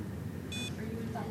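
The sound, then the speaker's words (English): A blood glucose meter gives one short, high-pitched electronic beep when it has a reading after a finger prick. The beep sits over a steady background murmur. “That sound is a blood glucose meter pricking her finger, and a beep will tell us when the meter has a reading.”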